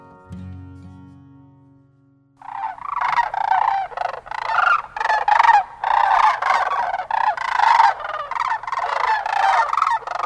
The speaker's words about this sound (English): Those who have been here know it's the sound of Sandhill Cranes.